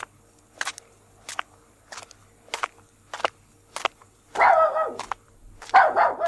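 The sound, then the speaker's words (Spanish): A dachshund barking: six sharp, short barks at an even pace, followed by longer, louder, noisier bursts of barking toward the end. “Una mujer con un perro salchicha por el puente del cachorro.”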